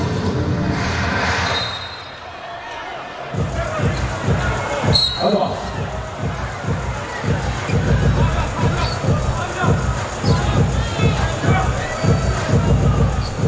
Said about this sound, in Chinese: 我们球队辛苦的球员非常贴心，用加油声鼓励他们。